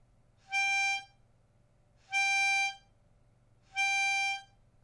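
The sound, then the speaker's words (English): Three sustained reedy notes from an old 1980s childhood toy mouth organ, each about a second long, evenly spaced with short silences between, bright and buzzy with rich overtones, all at a similar pitch. “I started off digging around in my old childhood toys from the 80s and found a mouth organ, which I used to love. Sounds a bit like this.”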